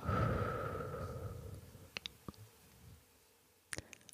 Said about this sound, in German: Noch einmal tief durch die Nase einatmen. Und durch den Mund aus.